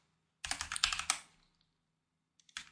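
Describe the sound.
Typing on a computer keyboard: a quick flurry of clicking keystrokes, a pause, then a few more taps at the end, fairly faint and with no talking.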